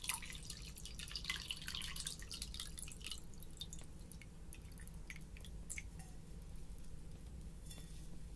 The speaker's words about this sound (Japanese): ちょっとお水も飲むね。